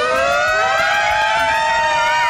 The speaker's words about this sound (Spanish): ¡La sirena viene hacia mí!